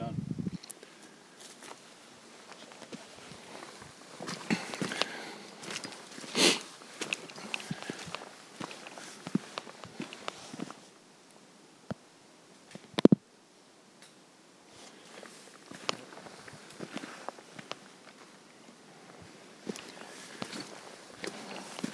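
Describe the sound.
Footsteps walking along a track among mountain ranges: many soft, irregular steps, faint and scattered, with one sharper knock midway and a voice talking at times.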